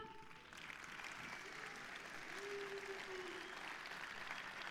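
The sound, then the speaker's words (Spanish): Applause for a murga group at a carnival murga contest in Pontevedra: dense, steady clapping from a crowd that holds at an even, moderately loud level throughout. “pedir un forte aplauso para Murga de Naveiro.”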